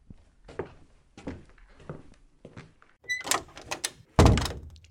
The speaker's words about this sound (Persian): رها صدای دره؟ انگار یکی پشت دره. بذار برم در رو باز کنم.